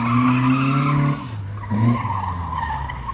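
Car tyres screeching as the car corners hard, lifting onto three wheels: a loud, sustained tonal squeal that wavers in pitch, breaks off briefly, then returns.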